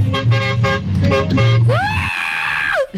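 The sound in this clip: A large truck's horn gives a loud, sustained toot whose pitch bends up at the start and drops at the end. Other pulsing tones come before it over a dense background.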